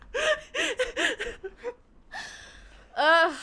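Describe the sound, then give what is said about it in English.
Two people sobbing and crying openly: gasping breaths and wavering, whimpering voiced cries come in short bursts, then a quieter stretch, and a longer shaky wail closes the moment. “Why are we both sobbing? This is the first in our podcast that we're both just like crying openly.”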